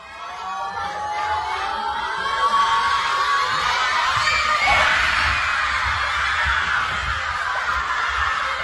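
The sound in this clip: Schoolchildren in a school cheer and shout at kickoff of Austria's first World Cup match in 28 years, a dense, continuous crowd roar of high young voices with shrieks and laughter that stays loud throughout.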